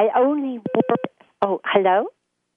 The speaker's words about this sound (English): Yeah, I don't know what that is. I think I touched something on my sister's phone.